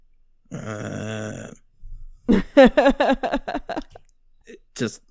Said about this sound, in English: it's a low groan